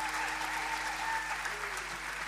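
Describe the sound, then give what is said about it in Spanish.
Applause for a blues trio's performance: an audience claps steadily at a moderate, even level for the whole stretch, with a faint sustained tone lingering underneath. “Los aplausos para el maestro Nevia, para Gustavo Giannini en el bajo y para Julián Cabaza en batería.”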